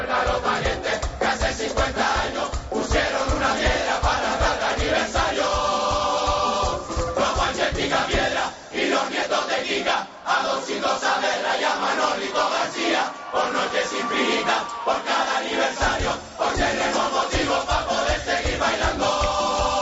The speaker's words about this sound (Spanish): Y además consiguieron levantar al público en un momento dado, recordando las figuras del carnaval, apelando a la nostalgia. Y escuchen cómo el público se alzaba con ustedes, fíjense.